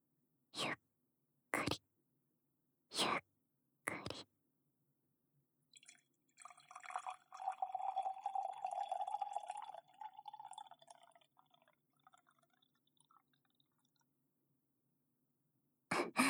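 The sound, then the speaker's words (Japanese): Hot water poured for tea: a few sharp taps come first, then a soft splashing trickle lasts several seconds and gradually thins out. The sound is faint throughout, with no talk. “お湯が跳ねないように。”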